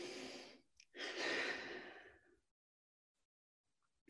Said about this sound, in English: So take a deep breath.